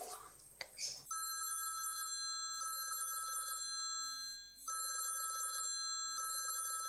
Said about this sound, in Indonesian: Oh, ingat aku. Mas Ali, tak telepon Mas Ali.